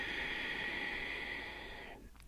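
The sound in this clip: Long exhale through the nose with the mouth closed during a yoga breathing sequence, a steady, airy hiss lasting about two seconds before it fades out.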